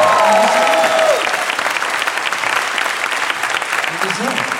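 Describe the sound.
An audience applauds to welcome a guest onto a comedy show. The clapping is dense and loud and carries on steadily throughout.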